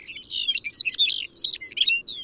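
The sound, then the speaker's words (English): A Lapland longspur sings in flight over Arctic tundra, giving a bright, jumbled stream of high twittering and warbling phrases. The song continues almost without a break, clear against a quiet background. “The longspur often takes flight to sing, casting its gentle song into the air as it glides above the Arctic tundra.”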